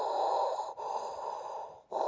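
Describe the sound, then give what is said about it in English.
A person imitates deep, mechanical breathing through a costume mask, making long, steady hissing breaths with brief gaps between them. “I have my Darth Vader mask, which I'm going to put on, and I'm going to make the sort of Darth Vader deep breathing.”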